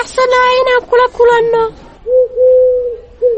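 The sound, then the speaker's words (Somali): Dove cooing: a few soft, low, hooting coos that hold a steady pitch, following a voice heard at the start. “waxaan maqlaa codka qoolley.”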